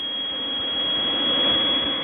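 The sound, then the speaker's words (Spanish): Airplane taking off, a continuous broad jet roar with a thin high whine, swelling slightly louder past the midpoint and easing back a little, with no voices. “El avión ya está despegando.”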